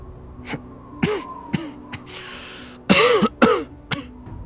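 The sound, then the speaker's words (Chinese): Soft coughing and throat-clearing from a man standing under a courtyard tree on a cold, windy night: a few short, low bursts spaced apart, then a louder, harsher pair of coughs and a final quieter one. “寒风过，寒夜低低咳嗽”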